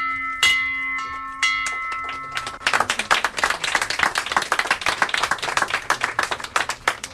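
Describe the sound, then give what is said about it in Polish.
A bell in a hospital maternity ward rung by a patient: one bright strike with a long, shimmering ring that slowly decays, then a burst of rapid, uneven clapping. “Dzisiaj jako pierwsza pacjentka tego oddziału zadzwoniła pani w ten dzwon życia.”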